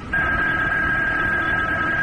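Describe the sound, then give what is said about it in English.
A telephone rings with a steady electronic tone that holds one pitch for about two seconds over a low background rumble. “And then the phone rang. I let it ring.”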